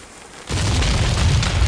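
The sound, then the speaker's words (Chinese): A homemade cannon explodes to blast open a tomb. It gives a sudden loud boom, then a dense, roaring rumble that keeps going without letting up. “这爆炸的威力还不小，直炸的土石横飞，浓烟升腾。”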